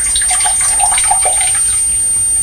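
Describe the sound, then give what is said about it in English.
Water is poured into a bottle, a steady, continuous splashing gush that stays fairly loud and even from start to end with no voices. “We'll pour some water into the bottle of that. There we are, and then we get a little drop out.”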